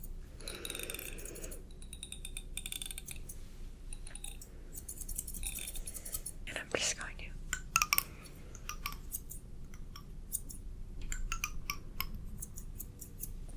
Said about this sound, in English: let me just take your hair, and I'm just going to comb it out